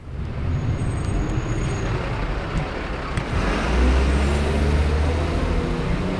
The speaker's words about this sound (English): Riding along behind a dustbin van.